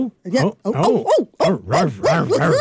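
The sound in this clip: A dog barks and yips in many quick, loud bursts with short gaps between them.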